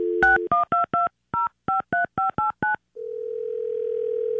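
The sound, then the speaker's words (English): Touch-tone keypad beeps placing a phone call: a brief tone, then a quick run of short electronic beeps in small groups, followed by a steady, continuous tone. “just be quiet in the background, and we are going to call your wife, Michaela”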